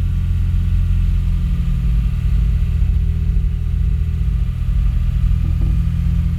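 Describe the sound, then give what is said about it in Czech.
A car engine runs while the clutch is being released, giving a loud, steady low rumble. The drone holds an even pitch throughout and has no voices over it. “pouštím spojku.”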